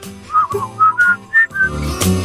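A person whistles a tune in a short melodic phrase of several clear, mid-to-high notes. The notes are separate and well defined, and the pitch generally steps upward across the phrase.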